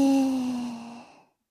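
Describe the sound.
A single voiced, sighing exhale during guided breathing, steady in pitch and fading out over about a second before silence.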